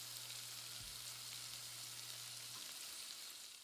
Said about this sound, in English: Sound check on the onions.